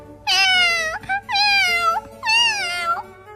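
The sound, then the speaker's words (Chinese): A person imitates a crying kitten with three drawn-out, whining meows of wavering pitch, loud and evenly spaced, with short gaps between them. “猫宝宝哇的一声哭了起来。”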